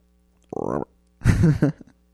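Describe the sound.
A human voice imitates a frog's burping croak with two short bursts, first a buzzy tonal hum and then a longer, rougher guttural burp that breaks off briefly before ending.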